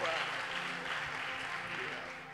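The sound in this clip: A church audience applauds a speaker welcomed to the front for a morning service, a steady wash of clapping that holds for the whole moment and eases slightly at the end, with voices mixed in.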